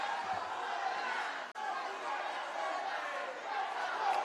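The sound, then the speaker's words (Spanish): Loud cheering and excited crowd chatter fill a hall as a newly elected president steps up to the lectern, a dense steady roar that briefly cuts out for a moment before surging on. “El público reacciona con mucha algarabía en el recinto.”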